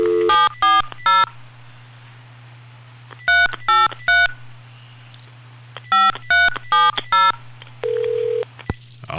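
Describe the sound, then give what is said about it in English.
Touch-tone keypad beeps dialing a telephone number, ten crisp tones in groups of three, three and four, separated by pauses over a low steady hum, then a short steady tone. “get the dialing music again. Or the dialing. There we go. Another dial could be you.”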